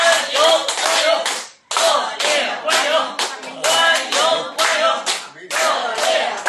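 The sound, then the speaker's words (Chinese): Applause from an audience of older Beijing residents welcoming an arriving guest: loud, dense, sustained clapping that dips briefly once, then carries on vigorously to the end. “一会儿马主任来的时候，我希望咱们叔叔阿姨以咱们老北京最热烈的掌声欢迎一下他，好不好，叔叔阿姨？”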